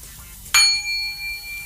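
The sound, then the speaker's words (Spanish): A single gong strike: a sharp metallic hit followed by a bright, sustained ringing tone with several clear overtones that fades slowly over the following second. “¿Sabes tocar el gong? ¿Es un chino o es un japonés?”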